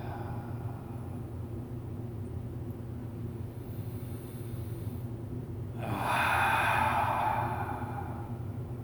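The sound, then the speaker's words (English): Deep belly breathing during a guided relaxation exercise, heard as one soft, airy breath that swells and fades near the end over a steady low background hum, with no talking. “Let your belly, belly just feel loose with belly breaths.”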